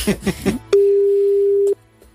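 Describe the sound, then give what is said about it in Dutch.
Ringback tone of an outgoing telephone call: after a few moments of talk, a single steady, mid-pitched beep holds for about one second and then stops. “Ik heb hem eventjes even gebeld. Kijk even. Okay, even kijken of je opneemt.”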